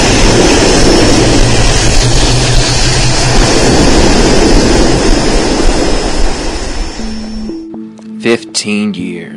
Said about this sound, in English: Houston, we are clear for takeoff. Taking off in 5, 4, 3, 2, 1.